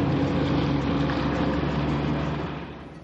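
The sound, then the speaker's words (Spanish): A ship sailing on the open sea gives a steady, broad rumble of engine and rushing water that holds at an even level and eases off slightly near the end. “El barco navega en alta mar.”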